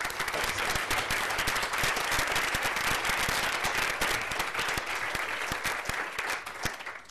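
Audience applause welcomes a lecturer at a literary festival lecture: a dense, steady wash of many hands clapping that continues evenly for the whole stretch, with no voices heard above it.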